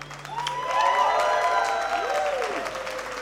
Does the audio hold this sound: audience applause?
yes